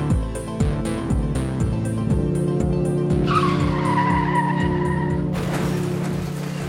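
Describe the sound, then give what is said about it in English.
A train choo-choo sound effect opens a show segment, with a quick run of rhythmic chuffing pulses, then a sustained high whistle tone, then a steady wash of noise. “if you heard that choo-choo, then you know it's time for Strain Wreck, the segment of our show that we love starting our show off with”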